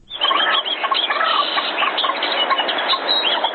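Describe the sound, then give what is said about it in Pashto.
Birds chirp in a dense, continuous chorus in a scenic recreational area of Sehisar, Ghazni city, where many overlapping calls form a loud, steady chatter with no talk. “له غزنی څخه مو حبیب الرحمن تاثیر په دې راپور کې دې سیمې ته ورولي چې مرغان پکې سندرې وایي”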